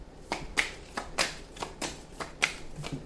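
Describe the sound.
Tarot cards being shuffled by hand in many crisp riffling bursts at an uneven rhythm, soft and papery, with no talk.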